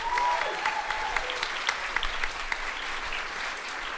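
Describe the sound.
Audience applause for a production crew, dense, steady clapping that holds at an even level throughout.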